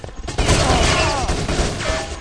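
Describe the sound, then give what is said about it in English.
Rapid gunfire in a competitive video game match with a bomb in play, a dense, sustained burst of overlapping shots heard under a fast-talking commentator's voice. “Keeper quickly gunned down Barrett with the kill, who turns his weapon on Brawley, hitting him a couple of times and not dropping him.”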